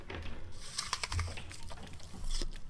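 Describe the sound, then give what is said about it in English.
Crisp crunches of someone stress-eating an apple: a few sharp bites and chewing snaps, fairly faint, with no talk. “I'm stress eating this apple”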